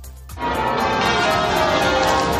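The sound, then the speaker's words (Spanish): Church bells pealing at St Paul's Cathedral in London to open a platinum jubilee thanksgiving service. After a brief quieter start, a dense, continuous wash of ringing swells in and holds steady. “Es la liturgia de Acción de Gracias que ha comenzado con el repicar de campanas”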